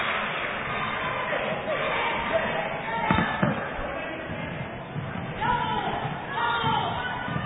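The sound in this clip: Dull thumps of a basketball bouncing on a court during a game, a few dribbles sounding under continuous play-by-play talk and faint crowd noise.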